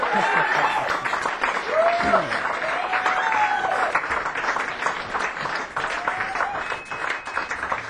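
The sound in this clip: Audience in Hamilton applauding and cheering to call a musician back for an encore: sustained, dense clapping with high whistles and shouts rising above it, unbroken for the whole stretch.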